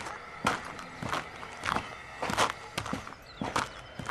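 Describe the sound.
Footsteps of a few people walking over to someone, a steady series of soft thuds repeating at an even pace throughout, with no talking.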